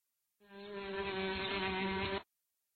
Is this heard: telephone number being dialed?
no